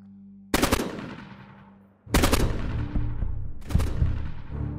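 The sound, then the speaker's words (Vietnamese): An AK rifle fires in a forest: three loud, rapid bursts, each with a dense cluster of shots at its start and then a long rumbling decay. “Tiếng súng AK nổ một tràng dài rền cả khu rừng”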